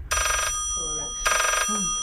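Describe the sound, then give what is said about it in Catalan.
An incoming-call telephone ring: two bright, buzzing electronic bursts with a pause between them, and a person speaking in the gaps. “De sobte, Yeplop Holmes rep una trucada que li canviarà la vida.”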